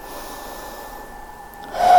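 A slow exhaling breath during a guided mindfulness breathing exercise: a steady, soft, airy rush that holds level and then swells louder near the end.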